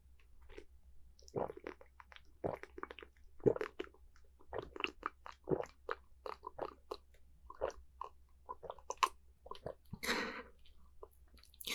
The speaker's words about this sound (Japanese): 紅茶を注いで牛乳を入れて、飲みまーす。